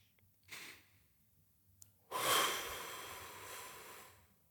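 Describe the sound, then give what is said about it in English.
Slow breathing during a guided meditation: a brief, soft inhale, then after a pause a long, airy exhale that swells and gradually fades, quiet and with no talk. “You can breathe in through your nose and out through your mouth.”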